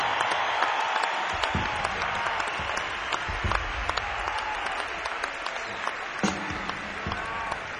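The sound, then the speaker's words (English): An audience applauds to welcome a legendary inspirational music group onstage, with dense, steady clapping that holds at an even level throughout. “Please give a wonderful welcome to the legendary Blind Boys of Alabama.”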